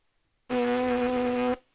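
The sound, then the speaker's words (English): A person imitates a brass instrument by pressing their lips together as if saying M and blowing air through them. The lip buzz is a single low, steady drone about one second long that starts and stops abruptly. “They put their lips together almost like saying M, and then they just blow air through it. So it sounds kind of like this if you don't have an instrument.”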